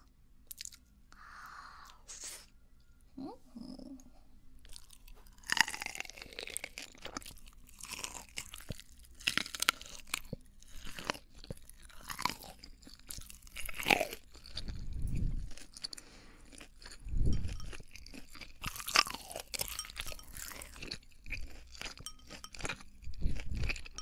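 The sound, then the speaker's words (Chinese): Crunchy seafood being chewed and bitten, with many sharp crunches repeating in an irregular rhythm, some noticeably louder bursts standing out over a steady low background. “过敏的话就不要吃咯，过敏的话你就看着我吃。”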